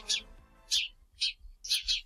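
Sparrow chirps: a few short, bright, high-pitched bursts spaced irregularly over two seconds, above a faint low tonal background.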